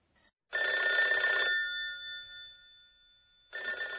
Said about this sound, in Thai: รีงคือเสียงเรียกเข้าของโทรศัพท์แบบหมุนเลขหมายครับ